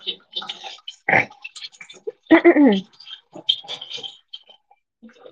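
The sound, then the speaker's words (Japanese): Dishes are washed under running hot water from a tap. Irregular splashes and drips come in scattered bursts of varying loudness. “私は今、洗い物をしています。”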